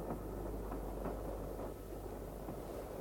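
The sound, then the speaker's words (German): A train rolls slowly along the track, giving a steady low rumble with faint, irregular knocks. It stays quiet and continuous, with no voices. “Der Zug fährt langsam.”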